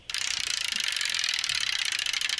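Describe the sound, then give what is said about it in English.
A prize wheel spins during a game segment, giving a rapid, even stream of clicking ticks. The ticks start abruptly and keep a steady pace throughout, with no talk over them. “Let's spin the prize wheel here one more time.”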